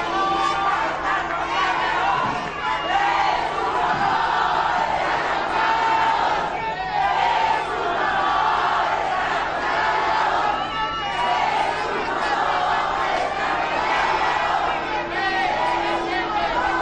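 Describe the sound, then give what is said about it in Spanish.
A crowd cheers and shouts to welcome Mexico's president at a ceremony, a continuous wash of many voices with scattered calls rising above the steady din. “Escuchen el recibimiento de la gente.”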